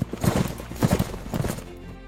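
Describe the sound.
Cavalry horses' hooves clop steadily under mounted riders, a dense, continuous run of low, rhythmic thuds at a brisk pace.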